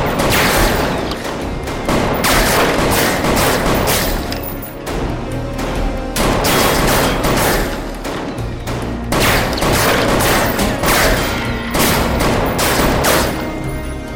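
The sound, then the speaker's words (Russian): Heavy gunfire erupts as a group of men open fire. Dense, loud volleys of shots and booms run continuously, with many overlapping bangs and no break and no voices. “Люди Фрэнкса открывают огонь.”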